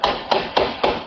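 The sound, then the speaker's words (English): Five sharp gunshots from a Toronto police officer firing at a stolen vehicle in East York, loud cracks in a steady, evenly spaced rhythm about a quarter second apart, each with a short fading tail. “That was the sound of a Toronto police officer firing at least five shots at a stolen vehicle that then screeched away from the scene here in East York.”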